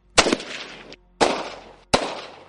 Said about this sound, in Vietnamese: Lạc Vương còn chưa kịp dứt lời, ở phía cuối đại điện chợt vang lên tiếng súng.